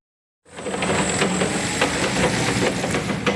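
Engine of a forklift hauling crates of freshly picked apples from an orchard to a storage hall, a steady droning hum that starts abruptly and runs evenly with faint rattling clicks.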